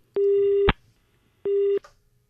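Electronic telephone tones after a caller's line drops on a phone-in, two steady mid-pitched beeps rich in overtones, the first longer than the second, separated by a short gap and heard alone.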